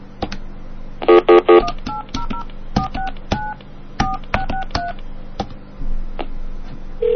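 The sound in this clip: Touch-tone keypad beeps as a telephone number is dialed: many short two-pitched electronic beeps, a fast cluster first and then a steadier series, with faint clicks between.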